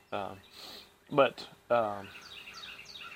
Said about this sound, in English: You can hear the birds chirping this morning.